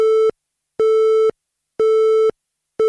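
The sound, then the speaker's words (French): Telephone busy tone after a call cuts off: a steady, mid-pitched electronic tone pulses on and off in an even rhythm of about half a second each, three full beeps and the start of a fourth, loud and alone. “Je n'entends pas très bien, la connexion n'est pas bonne ici. Attends, je vais me déplacer sur le bord du nuage. Allô ? Ah zut, ça a coupé.”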